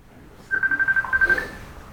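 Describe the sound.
A mobile phone rings, giving a rapid pulsing electronic tone at one steady pitch that lasts about a second and then cuts off.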